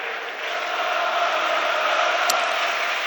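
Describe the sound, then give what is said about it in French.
A stadium crowd roars and cheers at a football match involving Toulouse, a dense, steady wash of many voices that holds at an even loudness throughout. “Et le public du stadium qui donne de la voix.”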